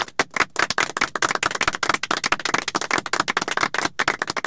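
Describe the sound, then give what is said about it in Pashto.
Brisk clapping from a small group, many sharp individual claps in a quick, uneven patter with a couple of short gaps, loud and heard on its own without talk. “چک چک ورته.”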